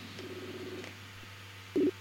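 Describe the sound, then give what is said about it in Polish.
A telephone call being dialed, heard as a single short keypad beep near the end over a faint low hum. “Ja zaraz do niego zadzwonię.”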